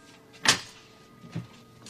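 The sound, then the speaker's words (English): A door being opened makes two brief, quiet sounds: a sharp, bright clack followed a moment later by a softer, lower knock, with faint room hush between them. “We open the door. You open the door”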